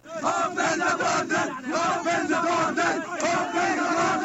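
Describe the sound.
A crowd of refugees at a border chants slogans demanding the crossing be opened: loud massed voices shouting in continuous rhythmic waves.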